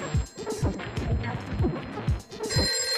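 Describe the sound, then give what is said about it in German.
A telephone rings in a house in Harlem, a series of bright, repeating bell tones mixed in with other low, busy sounds. “Wer zum Teufel ruft jetzt noch an?”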